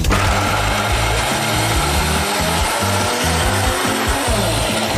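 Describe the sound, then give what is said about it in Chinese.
A blender grinds cooked white sesame seeds with 750 ml of pure milk, a loud, dense, unbroken whirring roar that holds steady from start to finish. “这个才是白芝麻，熟的，哎，我们就全倒里了。然后加750毫升的牛奶，纯牛奶，再倒， 差不多了， 差不多可以了， 可以了， 是吧？嗯。那现在我们就是榨汁儿。”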